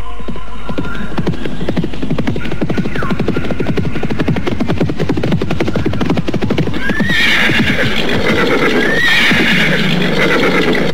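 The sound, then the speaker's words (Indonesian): Seven horses carrying riders, their hooves drumming a dense, continuous clip-clop, with high whinnies cutting through a few times. “Oh, 7 orang berkuda.”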